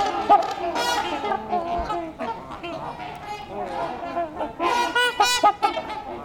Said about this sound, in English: I'm in a flock of trumpeter swans.